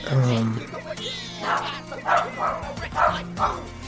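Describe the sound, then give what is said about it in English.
Several dogs bark in a string of sharp yips and barks, with a whimper among them, spaced irregularly across the second half while people talk. “I mean, those dogs want to bark. That's okay, I'll let them. I'm not going to just freak out because they're just animals.”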